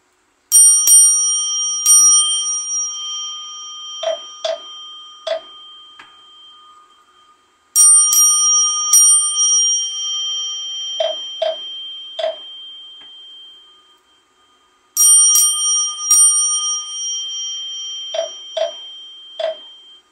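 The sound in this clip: Bright bells ring in a Buddhist chanting setting. A cluster of high metallic strikes is followed by a few short, lower knocks, and the pattern repeats three times, loud and alone.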